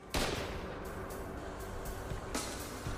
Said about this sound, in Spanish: Era una bomba hecha con un tubo un dispositivo improvisado muy volátil debido a la pólvora mantenida bajo presión.